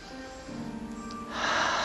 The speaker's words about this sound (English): Ujjayi breath out.